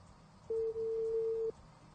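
Ringback tone from an unanswered telephone call: one steady, mid-pitched electronic tone lasting about a second, with a brief dip near its start, over a faint hiss.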